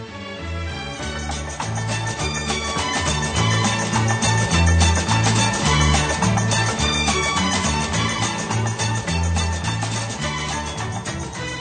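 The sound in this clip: An instrumental arrangement of a symphony's choral final movement plays as full, steady ensemble music with a rhythmic bass line, loud and even throughout.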